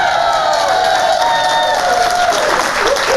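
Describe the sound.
A studio audience in New York City cheers and applauds, a loud, unbroken roar of clapping and voices with sustained high-pitched shouts running through it for about three seconds.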